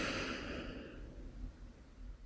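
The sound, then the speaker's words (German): A deep breath in at the close of a guided breathing exercise: one long, steady, breathy inhale filling the whole clip, with no talk over it. “Und ein letztes Mal einatmen.”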